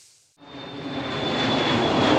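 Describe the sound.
Aircraft engine roaring as a plane climbs: after a brief faint sound and a short quiet gap, a broad rushing roar with a thin steady high whine swells in and keeps growing louder.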